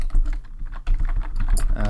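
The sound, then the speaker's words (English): Quick typing on a computer keyboard, a dense, uneven clatter of many key presses in a rapid, continuous stream. “Vamping while we type and look it up.”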